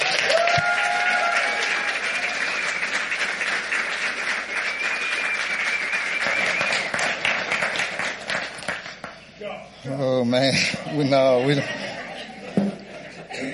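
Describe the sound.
A Cowboy Church audience applauds a welcome with sustained loud clapping and scattered laughter, which fades as a man's voice begins speaking.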